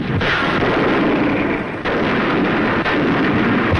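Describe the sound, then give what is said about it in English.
Naval bombardment from warships and rocket craft ahead of the Incheon landing in Korea: a loud, dense, continuous roar of gunfire and blasts, with a few sharper bursts breaking through. “A bombardment from warships and rocket craft prepared the ground for Korea's D-Day.”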